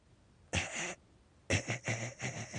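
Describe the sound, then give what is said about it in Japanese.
A person gives a choking cough and clears the throat: one rough burst, then a longer run of several sputtering, gagging pulses, all fairly quiet with no talk. “例えばこういうふうに喉をむせさせるような音を出しますので”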